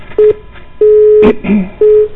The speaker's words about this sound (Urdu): ٹیلی phone line جو ہے مکمل نہیں ہو پائی.